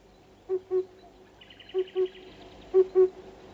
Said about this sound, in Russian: Кукушка говорит, что она все отлично слышит. А вот голос у нее действительно звучит глуховато.